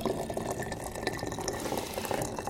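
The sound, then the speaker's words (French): Water being poured into a herbal decoction: a steady, continuous splashing stream that runs evenly through the whole clip without pause. “Alors, je vais mettre l'eau dans la décoction que je vous prépare.”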